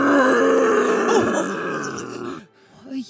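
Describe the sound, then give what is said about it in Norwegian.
A low, growling magical roar from an invisible source during a tabletop role-playing scene. It rumbles steadily for over two seconds with wavering pitch, then breaks off, followed by a brief, fainter grunt. “Og hører et magisk brøl.”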